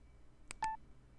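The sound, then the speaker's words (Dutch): Electronic beep from pressing the record or confirm button on a Plextalk Linio Daisy CD recorder: a brief click, then a single short steady beep, fairly faint over low background hiss. “Ik druk op de opnametoets of op de bevestigknop.”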